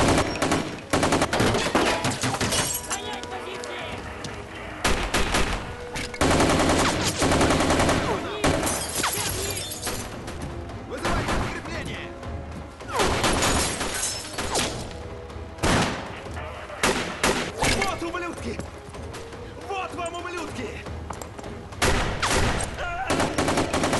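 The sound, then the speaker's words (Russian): Heavy gunfire erupts during a bank robbery, with many loud bursts of automatic fire and rapid single shots crackling almost nonstop, rising and falling in dense volleys. “Подтверждено ограбление банка на Кеннел-стрит. Слышны выстрелы.”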